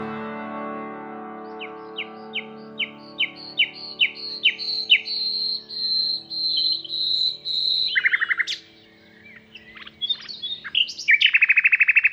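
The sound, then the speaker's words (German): Birds singing clear and loud: a run of repeated high chirps that speeds up and merges into a long sustained phrase, then varied, choppy notes. A low sustained tone hums underneath. “Die Vögel singen wie zuvor. Ach, gedankenlose Vögel.”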